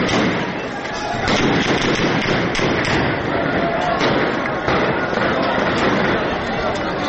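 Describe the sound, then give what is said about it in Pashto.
Gunfire during clashes between protesters and police in a bazaar in Shangla district, at an election-result protest: several sharp bangs and thuds punctuate a dense, continuous roar of crowd noise and voices. “دغه د ضلع شنګلې پالپورې بازار کې د مظاهره چانو او پولیس ترمنځ انښتو کې د ډزو آوازونه دي.”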